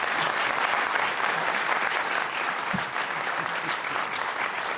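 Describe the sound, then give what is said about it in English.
An audience applauds a panel at the close of a discussion: dense, sustained clapping from many hands keeps a steady, even level for several seconds without easing off. “And audience, I'd just like you to give a big hand to our panel tonight for their thoughts.”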